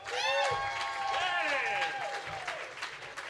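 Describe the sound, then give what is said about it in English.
A studio audience at a comedy quiz game show applauds and cheers to welcome the host, with clapping and whoops mixed together at a fairly soft, sustained level. “Put your hands together for Erik Tait.”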